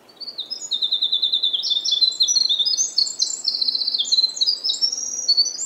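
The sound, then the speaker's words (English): Birdsong from blue-headed vireos and winter wrens in Acadia National Park, Maine: a continuous stream of rapid, high-pitched trills and chirping notes that overlap and repeat throughout, steady in loudness with no voices. “Acadia National Park in Maine, home to more than 300 bird species. Birds like the blue-headed vireo and the winter wren.”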